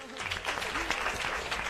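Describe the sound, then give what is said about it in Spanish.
Applause for a student singer at a school contest: steady, dense clapping with a voice heard over it. “Un aplauso, Adrián.”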